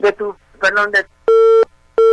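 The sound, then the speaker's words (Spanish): Busy tone after a phone call drops: two long, steady electronic beeps at one fixed pitch, loud and evenly spaced, following a short burst of garbled voice. “Bueno, parece que tuvo un problema con la línea, no pasa nada, ahorita Lulú recuperamos la llamada, es que aparentemente tuvo un problema de comunicación”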